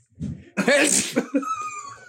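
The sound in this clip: A single loud sneeze bursts out after a short breathy buildup, followed by a softer voiced, breathy tail.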